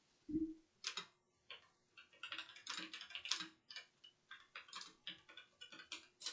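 Typing on a computer keyboard, heard as many faint, irregular clicks and clacks in uneven bursts with brief pauses.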